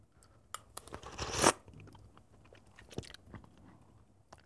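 A crunchy bite into a piece picked out of a dish in coconut milk, one rising burst of crunching followed by quieter, scattered chewing clicks, faint overall.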